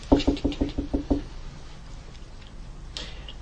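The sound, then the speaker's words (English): Seven quick, light knocks on a metal door come in an even rhythm within about a second, followed by quiet, with one brief faint sound near the end. “I'll go up and I'll tap lightly on the door.”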